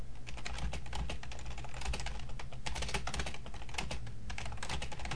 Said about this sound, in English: Now, I'm going to type another message into the message window.